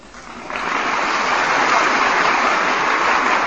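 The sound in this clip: Radio studio audience applauding a young poet on a live broadcast program. The clapping swells within the first half second into a steady, full wash of hand claps that holds evenly to the end.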